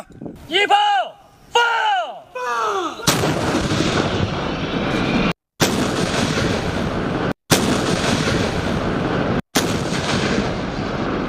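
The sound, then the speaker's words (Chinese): Howitzer artillery fires live rounds during a multi-weapon live-fire drill at a military training range. A man speaks first, then a sudden loud blast opens into a sustained, heavy, roaring rumble. “一炮放，一炮放，榴弹炮分队率先对目标展开火力打击”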